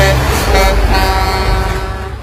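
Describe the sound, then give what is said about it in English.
A road train truck drives along a country road with a loud, steady engine drone, deep low rumble and a tonal mechanical whine, easing slightly quieter near the end. “This is the sound of a truck on a country road. This is the sound of a road train on a country road.”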